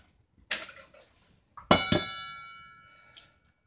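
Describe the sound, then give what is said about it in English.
Egg cracked into a bowl: a few sharp clinks of shell striking the bowl rim. One strike leaves a bright ringing tone that slowly fades, and a faint tap follows near the end. “So I'm going to do 1 of the eggs in this bowl and then 3 in the other bowl, since I'm splitting it up.”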